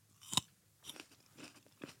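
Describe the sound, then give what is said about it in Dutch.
Crunching and chewing of a grape eaten close to a microphone: a sharp, crisp bite followed by a few softer, wet chewing crunches spread over two seconds, all faint with no talking. “Ik weet niet wat ik met die druiven moet doen. Geef maar mij eentje om te eten. Eet maar in de microfoon.”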